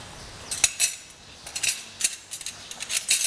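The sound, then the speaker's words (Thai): A utensil clinks and scrapes irregularly against a pot as pounded paste is stirred into soup to dissolve it, making light metallic taps and swishes with no talk. “คนให้ส่วนผสมจะได้ไม่เป็นก้อนนะคะ”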